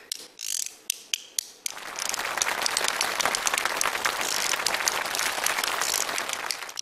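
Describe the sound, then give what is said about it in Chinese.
Shouyuzi, two small bamboo clapper boards, clacked by hand: a few sharp, separate clacks, then a fast, continuous rattling roll of dry clicks. “手玉子。 这是什么呀？ 手玉子就两个小竹板儿，你看上面什么？ 能打响吗？”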